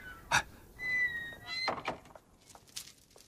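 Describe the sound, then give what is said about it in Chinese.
A door is opened: a sharp knock-like thunk is followed by a thin, high squeal, like a hinge, that holds for under a second, then a duller thud and faint scraping. No one speaks. “特地来帮助你们的，请开门。”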